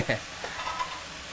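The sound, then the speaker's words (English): Thick, chewy, blanched Chinese egg noodles are stir-fried with oyster sauce and fish sauce, giving a brief, quiet scrape and sizzle of stirring in the pan. “So these are like really thick, chewy egg noodles, Chinese noodles that you already blanched and shocked in cold water. Yep. Stirring it in with the ingredients and that oyster sauce and fish sauce.”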